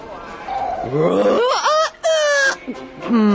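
A person imitates a lion's roar with a few loud, drawn-out voiced growls whose pitch wavers up and down, separated by brief breaks.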